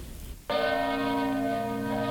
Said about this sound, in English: As the bell of the Congregational Church in Plymouth, Vermont, tolls the hour